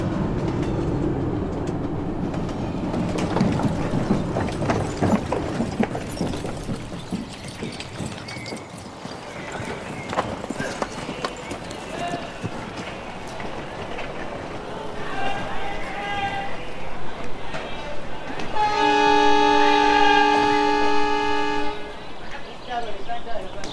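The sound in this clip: A moving train in India rumbles and clatters steadily, with dense rhythmic knocking throughout. A brief sustained tonal chord rises near the end, and voices murmur in the background.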